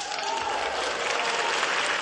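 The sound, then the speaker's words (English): Audience applause from young people answering Pope Francis, a dense, continuous wash of clapping that stays steady and even throughout. “He asked, receiving an applause.”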